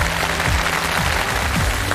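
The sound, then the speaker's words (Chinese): An audience applauds: dense, steady clapping fills the whole two seconds at even loudness, with a few faint voices mixed into the crowd noise. “掌声鼓励一下啊。”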